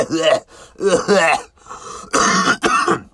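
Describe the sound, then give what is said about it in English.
A man imitates a persistent cough: a few rough, voiced throaty sounds followed by two harsh, loud coughing bursts. “as I actually cough when I do that.”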